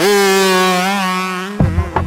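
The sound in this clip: Harley-Davidson motorcycle with a 1250 cc engine gives off a loud, steady, richly toned drone with a slight dip in pitch, then breaks into rougher, irregular bursts at the end.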